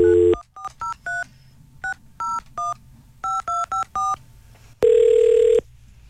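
Touch-tone telephone dialing: ten short keypad beeps in uneven groups, then a longer steady tone, with no talking.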